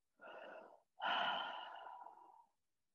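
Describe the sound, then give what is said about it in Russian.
A deep breath taken during a guided relaxation exercise: two airy breath sounds, a short one and then a longer one that slowly fades, alone with no talking. “И еще один вдох.”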